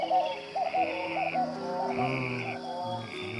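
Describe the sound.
Frogs croaking during the rainy season around a village in Mali: a dense chorus of overlapping, nasal calls repeated in a steady pulsing rhythm, fairly loud, with no voices.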